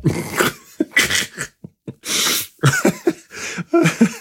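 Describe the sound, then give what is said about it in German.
Harsh coughing after choking on something swallowed wrong, in a series of loud, uneven bursts with sharp breaths and snorts between them and no talk. “Ich habe mich verschluckt.”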